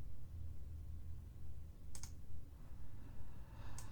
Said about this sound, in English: Type, type, type, type, type, type, type. Yeah, I'm sending him a response asking if he's gonna try to reconnect